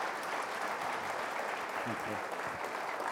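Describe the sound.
Audience applause welcoming a speaker to the platform at a church service: dense, steady clapping that fills the whole stretch at an even level, with a voice briefly audible beneath it near the end.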